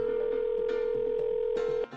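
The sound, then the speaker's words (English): A telephone dial tone holds one steady, unbroken pitch for nearly two seconds before cutting off abruptly near the end. “Let's dial Jo in.”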